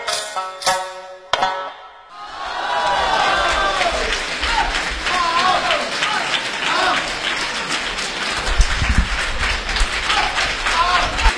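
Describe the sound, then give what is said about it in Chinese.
Applause from a full house at a crosstalk comedy show in a cinema theatre: a few sharp isolated claps, a brief lull, then sustained dense clapping from the audience for several seconds, with a louder swell near the end. “您呢也别吝惜了您的掌声。”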